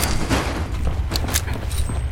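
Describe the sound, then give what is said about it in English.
Rocket explosions in a video game, with missiles striking a box in front of the player, heard as a few short, muffled booms and bursts over a steady, rumbling game background. “Somehow all of those rockets hit the box in front of me. Did not actually hit me.”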